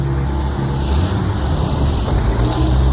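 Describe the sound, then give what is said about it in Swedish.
A car on freshly fitted winter tyres reverses while stuck, its wheels spinning. It makes a steady, loud, broad rumbling roar that holds level throughout, with no voices. “Vi ska försöka backa lite grann så att hjulen rör sig och att de sitter fast.”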